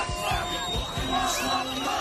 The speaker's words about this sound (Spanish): Este es el sonido de la alegría en la franja de Gaza, donde miles de palestinos celebraban ayer el fin de la destrucción